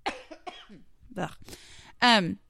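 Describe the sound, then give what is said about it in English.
A few short, harsh coughs with some throat clearing, coming in separate bursts of moderate loudness, ending in a brief voiced sound. “Excuse me, I'm about to cough again, so I need to go pause it.”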